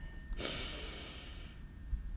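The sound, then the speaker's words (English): A single deep breath in, drawn during a guided meditation. It is a soft, airy hiss of inhalation lasting about a second, faint and alone, followed by quiet. “We begin by taking our three deep breaths. So let's breathe in”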